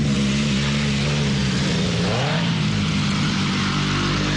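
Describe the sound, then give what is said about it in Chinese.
Motorcycle engines roar at a motorcycle campsite, a loud, steady low drone with a brief rising and falling rev in the middle, continuous throughout with no talk. “哇，可以感受到这个机车露营的感觉了。已经有这个机车的轰鸣声了。”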